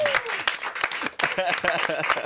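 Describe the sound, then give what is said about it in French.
Studio audience applause greeting a guest on a morning show: dense, steady clapping at an even level, with voices talking over it throughout. “Ken Kojandi qu'on peut applaudir très très”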